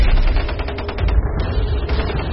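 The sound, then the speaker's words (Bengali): Gunfire exchanged between two military camps, a rapid run of many sharp cracks clustered in the middle, set over a steady low rumble. “আধ ঘন্টা ধরে দুই শিবিরেই অকারণ গোলাগুলি বর্ষণ চলতে থাকে।”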